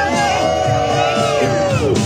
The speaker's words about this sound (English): Democrats cheering on former Senator Sherrod Brown